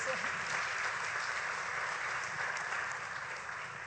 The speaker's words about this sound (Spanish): Bienvenida. Un aplauso.